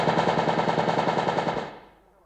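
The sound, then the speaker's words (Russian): Submachine gun fires a single sustained burst: a rapid, even string of loud shots that runs for over a second and a half, then cuts off and rings away into silence. “Маша, собрав последние силы, круто повернулась, вырвала у него автомат и отчаянно нажала спуск.”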